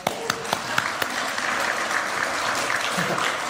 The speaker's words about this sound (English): You know, I think Steve deserves a clap.